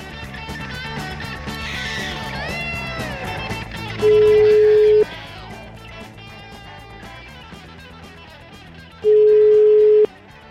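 Ringback tone of an outgoing telephone call ringing out: two steady one-second tones about five seconds apart, heard over background music.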